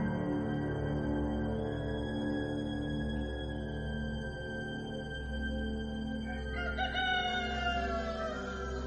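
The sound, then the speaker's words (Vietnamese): Roosters crow in a village shortly before dawn, around four in the morning. A long, drawn-out crow stands out near the end over a continuous low, droning background, and no one speaks. “Gần 4 giờ sáng, tiếng gà gáy khắp các ngõ ngách trong làng đoại.”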